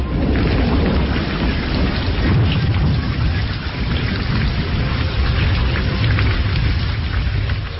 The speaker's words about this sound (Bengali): শুধু যে বৃষ্টি তা নয়, সেই সঙ্গে কড়কড় করে বাজ পড়ার শব্দ,